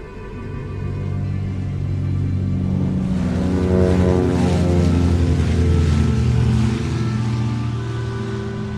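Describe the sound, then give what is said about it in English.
Airplane engine roaring during takeoff on a runway: a loud, continuous drone with strong low harmonics that swells slightly as the run goes on, with no voices. “Later, mechanics watch as the plane begins its takeoff.”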